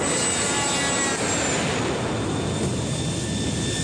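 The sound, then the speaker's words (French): Airplane engines run at full power during takeoff, making a loud, broad, unbroken roar with a thin whining tone riding above it. No one speaks over it. “attention, décollage imminent, okay, décollage imminent. Ok, plus fort, on va y aller. Attention, puissance, passage en puissance.”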